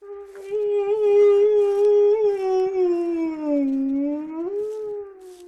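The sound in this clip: A dog howls in one long, mournful, sustained tone with rich harmonics. Its pitch wavers, sinks lower toward the end, then briefly lifts before fading, heard alone.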